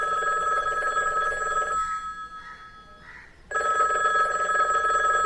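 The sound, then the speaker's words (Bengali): A telephone bell rings early in the morning with a bright, steady tone, breaks off briefly into a few softer pulses, then returns loudly. “কিন্তু সকাল সাতটায় তার telephone এসে হাজির।”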